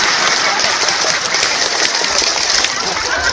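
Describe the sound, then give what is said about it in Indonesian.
A crowd claps through the scout clap chant known as tepuk pramuka, producing loud, dense clapping with voices mixed in throughout. “Halo, tepuk satu, tepuk dua, tepuk tiga, tepuk pramuka.”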